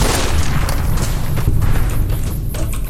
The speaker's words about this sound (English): Down to nine shots. Nine more bullets left.